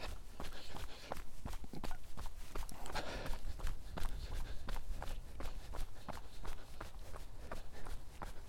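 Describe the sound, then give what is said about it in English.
Running footsteps of a person on a 5 km run beside a loch, heading away from town past cottages: many quick, evenly spaced footfalls in a steady rhythm over continuous background noise. “So I'm starting the run, heading away from town, down the side of the loch, past the wee cottagey bit.”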